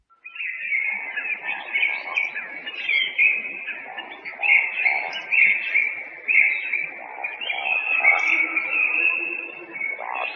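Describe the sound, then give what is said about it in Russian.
Woodcock calling: a continuous run of high, thin chirping notes over lower pulsing, grunting tones, moderately loud and unbroken throughout, with no other sounds. “Вальдшнеп.”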